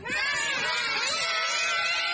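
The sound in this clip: Children screaming as they are tossed into shallow water: a dense chorus of shrill, high-pitched voices, loud and unbroken from start to finish.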